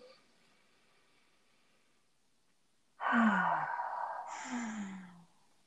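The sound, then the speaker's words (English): A group takes a deep collective breath together: broad, airy breathing noise swells up after near silence, holds for about two seconds with a second surge partway through, then fades out. “Collective breath.”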